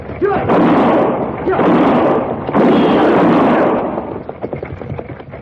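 Gunshots in an old Western radio drama: a loud volley of heavy overlapping blasts that merge into a continuous roar for about four seconds, then thin out into scattered sharper cracks.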